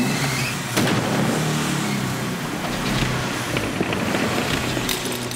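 Engine of a run-down car revving, a loud, steady, broad roar that holds at an even level throughout without a clear rise or drop in pitch.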